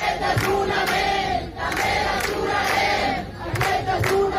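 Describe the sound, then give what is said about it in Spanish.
A protest crowd at a housing encampment in Barcelona chants and shouts loudly and continuously, with rhythmic surges in the noise. “España mantienen sus acampadas, se mantienen allí y vamos a recoger los sonidos. Por ejemplo, así sonaba este jueves Barcelona.”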